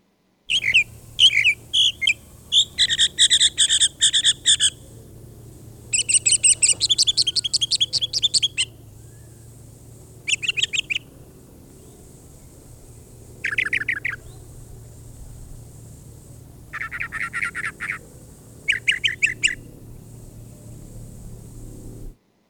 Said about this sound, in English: Please play Mockingbird number 2.